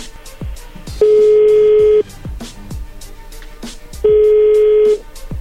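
Two long ringback tones as an outgoing phone call is placed, each a steady mid-pitched tone lasting about a second, about three seconds apart, with faint rhythmic clicking in the background.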